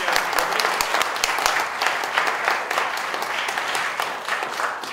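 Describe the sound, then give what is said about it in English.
A round of applause from the audience at a panel discussion: a crackling patter of many hands clapping steadily at an even level from start to finish. “another round of applause for J.P. Tremblay”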